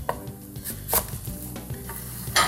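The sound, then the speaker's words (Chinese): Knife slicing Chinese cabbage, a few crisp cutting knocks over steady background kitchen clatter, with no talk. “白菜我们就直接切片就好了。”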